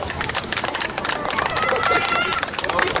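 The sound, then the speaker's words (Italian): A group claps palm to palm during a laughter yoga session, giving rapid, many crisp claps in an uneven, busy rhythm with voices chattering underneath. “Nello yoga della risata facciamo palmo a palmo, cioè così. Perché in questo modo noi attiviamo tutti i meridiani, e quindi attiviamo tutto il nostro corpo, per cui adesso proviamo ad applaudire”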